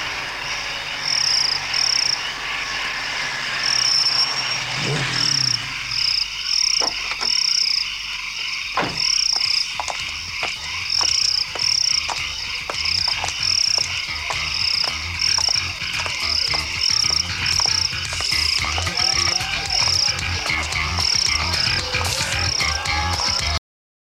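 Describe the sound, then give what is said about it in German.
Crickets chirping, heard as a sound effect at a dance party: a steady, high-pitched pulsed chirp repeats evenly throughout, joined by lower croaking and scattered clicks, with no talk. “nein, das sind Grillen”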